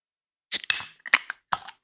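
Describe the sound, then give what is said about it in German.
A can or bottle of Asahi Super Dry beer is opened: a few sharp cracks and clicks, one followed by a brief fizzing hiss, in quick succession with no talking. “Ich öffne als erstes das Asahi.”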